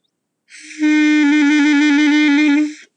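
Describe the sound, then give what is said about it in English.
A clarinet played by a beginner holds a single loud, steady note for over two seconds, with slight pulsing in the tone before it tapers off, alone with no talking. “Yes, that is a sound of the clarinet, and I have been slowly but surely learning the clarinet”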